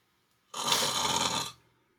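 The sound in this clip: A voice imitates the snoring of a sleeping dwarf during a fantasy tabletop role-playing game: a single breathy, rasping snore of about one second, heard on its own.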